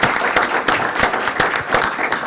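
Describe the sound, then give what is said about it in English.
An audience applauds panelists at the close of a public panel meeting, with dense, even clapping from many hands that holds at a steady loud level for the whole short stretch. “Please give our panelists another round of applause.”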